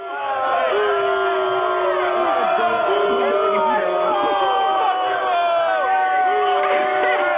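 A studio audience cheers and whoops, loud sustained crowd noise filled with rising shouts and high whoops that continue without pause.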